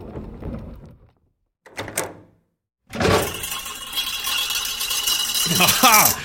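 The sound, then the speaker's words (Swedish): A small hatch door being opened: a short rattle and a brief clunk, then a long, loud, sustained rattling scrape that builds toward the end. “Så att ska du öppna luckan då? Ja, nu öppnar vi.”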